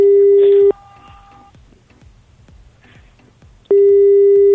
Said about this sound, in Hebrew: יאללה, בוא נחייג לאריה.